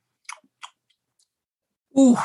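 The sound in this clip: Two brief, crisp bites or chews on a burger, then a pause before a voice starts talking loudly.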